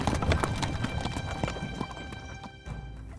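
A horse's hooves clip-clopping as it draws a carriage, a steady run of many quick clops continuing throughout at a moderate level.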